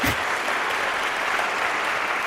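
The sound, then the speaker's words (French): A concert audience applauding a trio: dense, steady clapping that holds at an even, loud level across the whole clip with no pauses. “Je vous propose de vous manifester à l'antenne en applaudissant par exemple.”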